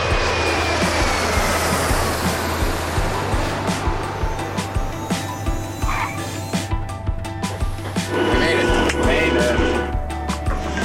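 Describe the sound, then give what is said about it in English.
Airplane engine roar at an airport, a loud, steady drone with a deep hum underneath, holding nearly constant for the whole stretch with only slight swells. “We're headed to the airport to catch a flight for Sacramento”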